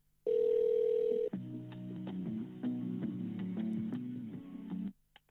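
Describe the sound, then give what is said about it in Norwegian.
Telephone hold tone while a call to a medical centre is transferred to a free staff member: a loud steady tone for about a second, then a lower, droning pattern of tones with faint ticks before it stops abruptly. “Du settes nå over til en ledig kundebehandler. Et øyeblikk. Please hold.”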